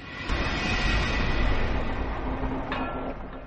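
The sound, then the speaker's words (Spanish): Train rolling along a railway line, diverted onto a branch line in the forest of Compiègne in 1940, producing a steady, fairly faint low rumble that swells slightly and then holds evenly, with no voices. “El dictador alemán Adolf Hitler ordena que desvíen un tren a una línea secundaria en los bosques de Compiègne.”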